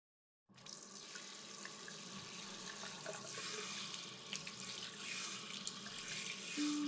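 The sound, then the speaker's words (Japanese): Running water rinsing shampoo out of hair: a smooth, even, hissing stream that starts abruptly after a moment of silence and continues steadily to the end. “これで終わりました。シャンプーを流してしまいましょう。”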